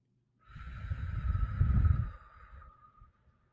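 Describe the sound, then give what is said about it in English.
Deep breathing during a relaxation exercise: a person draws breath in through the nose and slowly exhales through the mouth, giving one long, soft, airy rush that swells and then tapers away. “take a deep breath through your nose and then another deep breath through your nose while holding that and then slowly exhale through your mouth”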